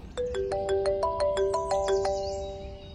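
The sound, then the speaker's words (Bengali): A mobile phone ringtone: bright electronic beeps in a quick melodic pattern that repeats several times, fairly loud and alone, with no voices. “রণজয়ের mobile বেজে উঠল”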